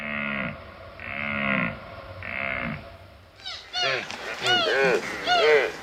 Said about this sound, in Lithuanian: Čia girdite elnio patelės ir jauniklio balsus.